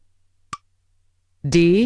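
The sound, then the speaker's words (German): One short, crisp click as the start-stop button on a reading device is pressed, standing alone in quiet. About a second later a voice starts speaking. “Ich drücke Start-Stopp lange.”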